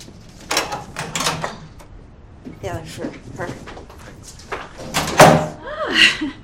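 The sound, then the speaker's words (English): A door is opened as someone goes to answer it, heard as a few sharp clunks and rattles with voices around them. “Lou hesitantly goes to get the door.”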